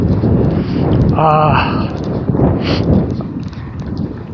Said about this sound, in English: It is breezy. The flag on the pole here is standing out almost fully extended.